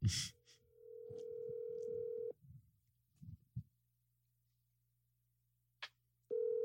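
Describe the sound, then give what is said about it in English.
Ringback tone of an outgoing phone call placed with caller ID blocked: a steady mid-pitched tone for about two seconds, a long gap with faint clicks and handling noise, then the tone starts again. “Let's star 6-7 them. They're not even going to answer, but like, let's just see. Okay, call it.”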